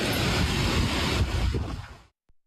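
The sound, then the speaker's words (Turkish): Strong wind blowing dust through a village in Bingöl, recorded on a phone camera, a loud, steady roaring and buffeting rush that cuts off abruptly just before the end. “Bingöl'de de Su Düğünü köyünde şiddetli rüzgar etkiliydi. Ortalık tozla kaplandı. Rüzgarın şiddeti cep telefonu kameralarına yansıdı.”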